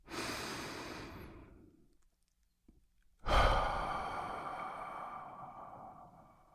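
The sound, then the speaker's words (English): Deep breathing by one person: a long, airy breath of about two seconds, a short silence, then a stronger, fuller breath that slowly fades out. No one speaks. “And if you're ready, let's take a deep breath.”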